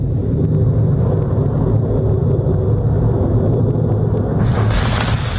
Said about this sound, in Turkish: Bir drone tesisinin vurulduğu bilgisi var. Bir patlama seslerini bir dinleyelim.